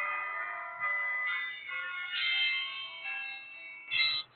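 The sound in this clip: An alarm goes off alone, a chiming electronic tone that steps between several pitches in a repeating melodic pattern with a brighter, louder burst near the end.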